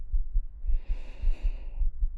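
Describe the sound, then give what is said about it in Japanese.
A pounding heartbeat gives many soft, low thumps in a steady double-beat rhythm, with faint airy breathing in the middle of the passage. “ほら、わかりますか？私の心臓ドキドキしてますよね。”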